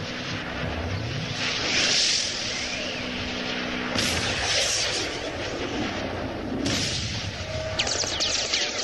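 A radio-drama effect of five airplanes flying overhead: a dense, steady roaring engine drone fills the whole clip, with a few sharper swells and bursts rising out of it.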